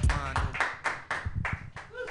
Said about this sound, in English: Put your hands together for your next comedian, everybody.